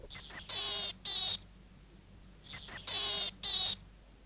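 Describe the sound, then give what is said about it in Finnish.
Willow tit calls in two matching phrases. Each phrase is a pair of thin, high notes followed by two harsh, buzzy, nasal notes, with a quiet pause between the phrases. “Juuri tämä ääni, tsitsi tää tää, paljastaa erehtymättömästi, että kysymyksessä on hömötiainen.”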